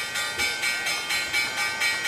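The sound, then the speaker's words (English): A stock market closing bell rings loudly and continuously as a bright metallic clangor, pulsing in a fast, steady rhythm for the whole stretch. “let's hit the closing bell”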